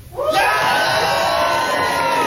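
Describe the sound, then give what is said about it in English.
An audience cheering, whooping and yelling for a performer at a live show. After a brief quieter lead-in, the loud, excited crowd noise bursts in and stays strong and sustained to the end. “A cheer for Adam?”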